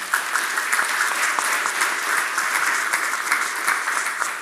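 A church audience applauds to welcome Canon Jack, a visiting preacher, at a service. The clapping is loud, dense and continuous, steady for about four and a half seconds without a break.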